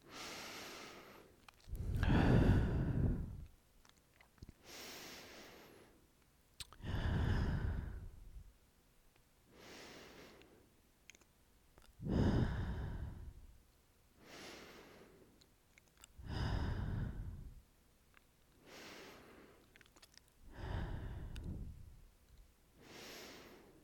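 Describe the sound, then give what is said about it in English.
Slow, deep breathing, drawing in through the nose and letting out through the mouth, repeats in a steady cycle of louder and softer breaths with no talk. “take 6 deep breaths with me, in through your nose and out through your mouth.”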